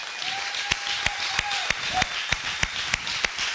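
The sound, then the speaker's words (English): Audience applause in a church welcoming a guest pastor, sharp hand claps falling in a steady, fairly even rhythm, loud and dense throughout. “would you guys put your hands together, together give a great Next Level Church welcome, Pastor Herbert Cooper.”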